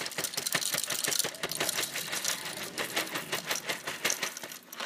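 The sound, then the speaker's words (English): Onyx Coffee Lab Monarch coffee beans being ground, a dense, continuous crackling and rattling with many rapid, uneven clicks at a fairly quiet, steady level. “See, today I am grinding a coffee called Onyx Coffee Lab. And it is called Monarch.”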